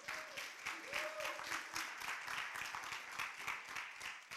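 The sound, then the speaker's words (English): Audience applause for the preacher's wife during a church service: a dense burst of clapping that swells and holds steady, with voices calling out over it. “y'all clap louder for her than me.”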